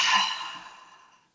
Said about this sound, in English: Take a deep breath in through your nose and big open mouth exhale.